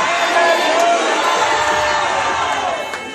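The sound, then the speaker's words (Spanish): A church audience applauds and cheers in a dense, continuous roar of clapping and raised voices. The noise stays loud before fading slightly at the end. “Jesus, dale un aplauso. Aleluya.”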